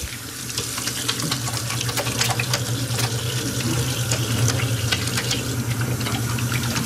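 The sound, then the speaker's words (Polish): Hands being washed under a running tap before entering a food production hall: a steady, splashy rush of water with fine spattering over a constant low hum, continuous and without talk. “Jeszcze musimy teraz umyć ręce i zdezynfekować przed wejściem na halę. Mydło i płyn do dezynfekcji.”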